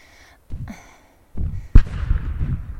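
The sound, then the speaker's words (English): Gunfire aimed at the people under attack: a sharp, loud blast cuts through heavy low rumbling bursts, with a few quieter thuds before it. “How are they still firing at us?”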